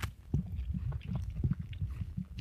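Soft, wet chewing of tofu while tasting it, with low, continuous mouth sounds and small bites in an uneven rhythm, fairly quiet and with no talking.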